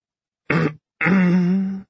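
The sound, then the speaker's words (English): A woman clears her throat in two rough, voiced bursts, a short one and then a longer, louder one after a brief pause, with nothing else around them. “cleared her throat”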